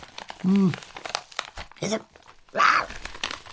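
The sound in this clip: A paper envelope crinkles as someone searches it for a breakfast bar. Crisp rustling and crackling continue throughout, and a voice sounds briefly twice.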